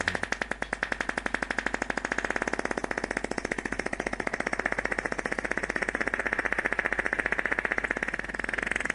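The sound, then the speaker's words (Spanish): A recorded fart, the winning entry of the 2023 FAF Festival, is heard alone as one long, loud rattling buzz. It pulses rapidly and evenly for about nine seconds without a break. “El pedo que ganó el año 2023 el FAF Festival.”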